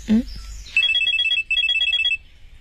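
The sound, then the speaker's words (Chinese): A telephone rings in two quick bursts of rapid, bright electronic trilling with a short gap between them, right after a brief vocal sound at the start. “我先接电话了。”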